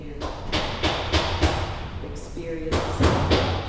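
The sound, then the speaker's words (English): Heavy construction banging from a large building expansion project next to a gym: a steady run of loud, evenly spaced thuds, a short lull, then several more thuds in the same rhythm. “That's the sound of a massive construction project that's going on just outside the gym.”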